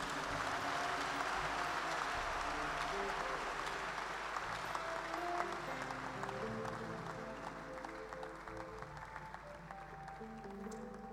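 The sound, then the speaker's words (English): A church convention audience applauds during a worship service, a faint, scattered patter of clapping that slowly tapers, with sustained musical tones beneath. “Clap for the Lord.”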